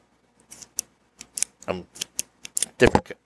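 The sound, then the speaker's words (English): A cigar cutter snips a cigar, heard as a few sharp clicks and small snaps of the blade, ending in one louder crisp cut. “different cutter. Cut the cigar. So anyway, so... we are using a different cutter.”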